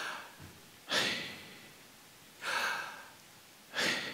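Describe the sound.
A person breathes audibly in and out, with three strong, airy breaths separated by quiet pauses and a fainter breath near the start. No one talks.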